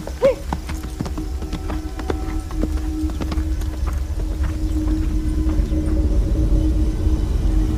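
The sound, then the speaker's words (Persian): Horse hooves clip-clop steadily with many even hoofbeats over a low rumble as the horse is ridden. “خدیجه تبر رو رها میکنه و سوار اسب میشه و میره.”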